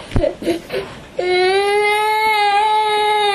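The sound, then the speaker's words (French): A young girl crying at school: a few short, choked sobs, then one long, loud, sustained wail held at a steady pitch until the end. “Alors tu arrêtes de pleurer s'il te plaît. D'accord. Montre que tu es une grande fille. Arrête de pleurer.”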